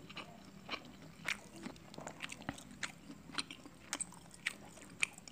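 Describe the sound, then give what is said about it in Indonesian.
Someone eats fried catfish dipped in sambal, with many soft, crunchy bites and moist chewing in an irregular rhythm. The sounds are faint, with no talking. “Kita cowel sambelnya Terus kita makan nih”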